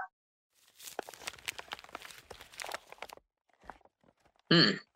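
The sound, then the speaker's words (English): Two pieces of folded parchment paper are unfolded with many quick, faint crackles and rustles over a few seconds. A short voice follows after a pause. “There are two pieces of paper folded together.”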